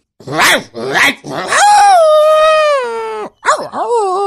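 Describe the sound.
Dog-like barking: three short yelps, then a long, drawn-out howl, then a couple of wavering whines. All are loud and clear, with no other sounds around them.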